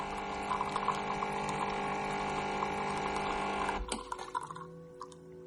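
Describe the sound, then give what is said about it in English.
An espresso machine pouring coffee into a cup in a kitchen gives a faint, steady droning hum that cuts off near the end, leaving a few soft scattered sounds. “In the kitchen, coffee pours from an espresso machine into a cup.”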